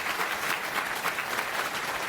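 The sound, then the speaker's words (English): Audience applause welcoming a presenter at a technical talk: thick, continuous clapping from many hands at an even, fairly loud level throughout the short stretch. “Round of applause for Josh.”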